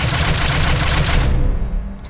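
A shot fired from a starship weapons turret: one loud, dense blast with deep low rumble that holds for over a second, then thins and fades.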